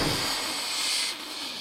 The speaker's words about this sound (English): That's the biggest pause you've left before you've emerged as a genie. I had to let all the fizz settle. There was a lot more fizz that time.